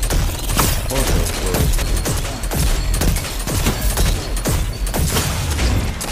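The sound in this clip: Sniper rifle gunfire in a video game: many sharp, loud shots crack in quick succession with little pause.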